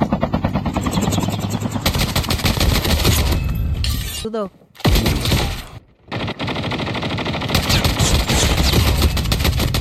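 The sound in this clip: Rapid automatic gunfire from a weapon in a video game match, pulled from a supply crate, rattles in dense, loud bursts that break off briefly twice before resuming.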